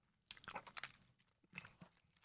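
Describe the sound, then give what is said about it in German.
A pack of organic apple-rhubarb fruit purée being opened: a few quiet, crinkly crackles and rustles in short bursts. “in einem Päckchen sind 6-mal Bio-Fruchtpüree Apfel-Rhabarber. Das Gute ist, man kann einfach mal testen, ob es einem zusagt. Ich mache es jetzt mal auf.”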